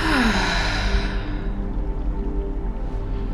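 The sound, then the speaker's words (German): A deep breath during a guided breathing exercise, heard as a long, soft, airy rush that slowly fades over a steady low hum. “Noch zwei Atemzüge tief ein und lösend wieder aus.”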